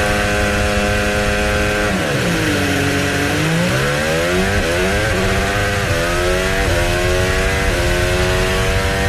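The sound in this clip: Onboard Formula 1 car engine during a practice start, a loud high-revving scream whose pitch dips and then climbs in steps through quick gear changes, steady and continuous.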